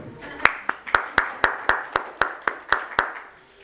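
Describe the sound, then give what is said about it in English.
Eleven sharp hand claps at a talk, evenly spaced in a brisk, steady rhythm, each one crisp and distinct with a short fade before the next. “So congratulations everybody, big hand of applause to you all for first of all being awake,”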